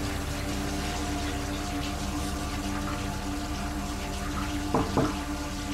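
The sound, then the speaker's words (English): Water runs from a tap into a bathroom sink as hands are washed clean of blood. The rush is low and steady, and a couple of brief splashes come near the end. “in the bathroom, washing blood off of her hands”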